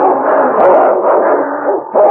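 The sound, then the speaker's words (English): A large dog and a wolf snarl while fighting, making a loud, continuous, rough growl that swells and dips without a break. “His jaws clamped on the throat of the wolf and they rolled snarling in a heap.”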